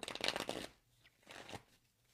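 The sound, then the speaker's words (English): Playing cards being shuffled and pulled during a spiritual card reading: two rustling, papery bursts, a longer one followed by a shorter one after a brief quiet gap, with no talk over them. “I'm just going to pull some cards for you”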